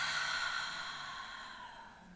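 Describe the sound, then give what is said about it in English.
A long, deep breath is let out in one slow, soft exhale that gently fades over about two seconds, with no talking. “let's take a nice, really long, deep breath in. And hold it and release.”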